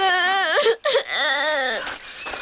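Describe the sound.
A child cries in long, wavering, high-pitched wails that rise and fall, broken by a brief catch of breath, then trails off into shorter sobs.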